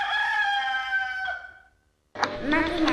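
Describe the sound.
A fighting rooster gives a single loud, harmonic crow that holds steady, then fades out into silence.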